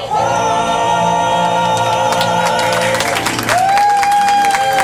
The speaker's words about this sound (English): Well, thank you very much, ladies and gentlemen, boys and girls. We've got a big round of applause for a ragtime family in the park.